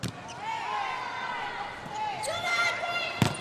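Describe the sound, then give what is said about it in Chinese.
A volleyball is struck for a serve in a match. One sharp, brief hit lands near the end under continuous commentary and steady background noise. “王媛媛来发球”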